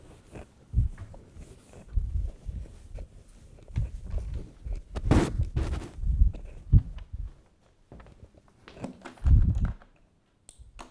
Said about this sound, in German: Und ich wollte vermeiden, die Tafel nochmal wischen zu müssen, aber es hilft nichts.